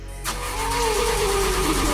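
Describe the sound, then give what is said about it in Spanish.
A car engine cranks but will not start because its kill switch is engaged, a loud, steady whirring grind kicking in after a brief pause and holding without catching. “El motor no quería encender y yo intentaba todo para lograrlo.”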